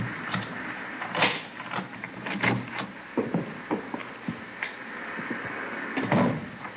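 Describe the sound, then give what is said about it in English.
A front door unlocked with a key and swung open: a run of sharp metallic clicks, rattles and knocks, irregular and moderately loud, with no talk over them. “Here's the front door key. See if you can work it. Well, I know how it works. You go ahead and open it.”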